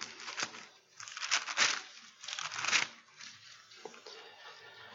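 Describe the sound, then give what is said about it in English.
Bible pages rustle and crinkle as they are turned to Acts chapter 20, with several soft papery bursts of varying loudness and no talking. “If we turn over to Acts chapter 20.”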